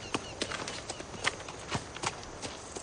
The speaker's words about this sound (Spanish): El hombre de ojos claros se aproxima en un caballo oscuro a la rama de un árbol.